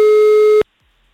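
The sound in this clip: A telephone ringing tone during a call: one steady, mid-pitched electronic tone lasting just over half a second, then cut off abruptly into silence.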